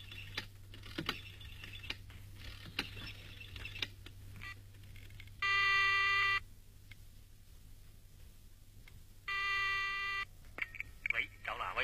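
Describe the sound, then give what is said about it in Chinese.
A telephone rings in two separate steady bursts of bright, buzzing harmonic tone, with scattered clicks and taps around them. “田小姐，电话啦。”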